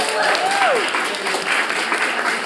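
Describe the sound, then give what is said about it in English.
An audience gives a round of applause for a group of creative interns, a loud, continuous burst of many clapping hands with voices mingling in the crowd noise. “please give a round of applause to the New York Creative Interns, to Emily and”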